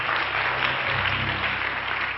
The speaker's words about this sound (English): Give our guests a good hand clap. Glad that they are here.